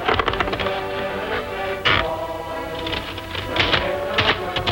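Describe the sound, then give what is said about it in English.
A typewriter clacks and thunks as a sheet of paper is rolled in and typed on, with a few irregular mechanical strikes over a steady tonal background. “They bring the list to Stephen, who rubs out Matthew's name, and then rolls the list into the typewriter.”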